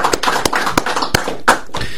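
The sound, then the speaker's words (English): A few sharp, separate hand claps from studio guests on a radio talk show, spaced unevenly across two seconds, with no speech over them. “Give yourselves a round of applause, guys.”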